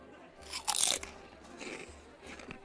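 Biting and chewing on something to eat: a loud, crisp crunching bite, then a few softer crunchy chews.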